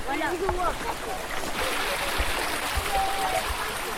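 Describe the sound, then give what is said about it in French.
A stream flows in a steady, broad hiss of running water that stays even and constant throughout. Brief voices sound near the start. “T'aimes bien l'eau ? Oui. On entend ça tous les jours qu'on va à Fontépèce, c'est génial.”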